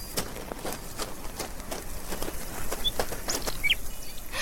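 A magpie flaps off in flight, its wingbeats making faint, soft, rapid whooshing pulses, with a couple of brief high chirps near the end.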